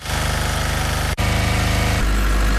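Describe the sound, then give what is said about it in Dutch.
Power generators idle in city streets in Ukraine during blackouts, giving a steady, loud engine drone with a fast regular pulse. The sound cuts out briefly near the middle, and a deeper hum joins toward the end. “Zo klinken nu alle steden in Oekraïne. Overal ronken de generators. Groot, klein, stil, hard.”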